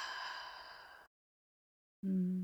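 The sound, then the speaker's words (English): A long, deep, guided exhale of breath comes out as an audible sigh, fading steadily over about a second. Silence follows, and then a low steady tone begins. “So take one inhale right here, right now. Inhale. And then exhale.”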